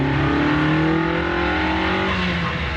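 A car with a manual gearbox drones steadily as it is driven, its engine hum loud and continuous with no clear shifts or breaks.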